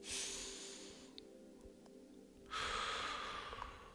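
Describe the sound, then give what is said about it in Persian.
A deep breath during a meditation: soft, airy breath noise, with a long breathy stretch at the start and a louder one in the second half. “بذارین هوا وارد بدن بشه انرژی بده تازه کنه و با بازدم تنش ها رو ببره بیرون دم بگیرین”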